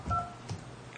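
Telephone keypad tones sound as an account code is entered on a phone system. A few short, faint beeps stand alone without talk.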